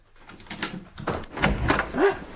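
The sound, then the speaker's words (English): A door being unlocked and opened, heard as a few clunks, clicks and rattles of the lock and door moving, with no talk. “Open the door. The key's on your side. But I must put some clothes on first. There's no need. Unlock the door, then go back to bed again.”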